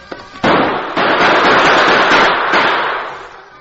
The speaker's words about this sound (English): Bullets struck the rocks on all sides of the Lone Ranger as he unholstered his guns.